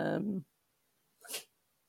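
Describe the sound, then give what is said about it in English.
A dog sneezes once, a short, breathy burst of noise, after a brief human voice at the start and a moment of quiet. “That's my dog sneezing.”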